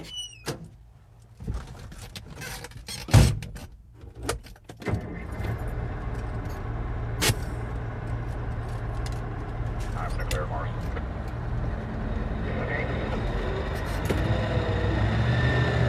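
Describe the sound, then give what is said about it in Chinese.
A car is started and set off: a few clicks, key jangles and thumps come first, then a steady engine hum sets in and runs on evenly to the end, growing slightly louder. “芮小丹朝站在不远处的小赵摆了摆手，示意道别，然后坐进车里，发动车。”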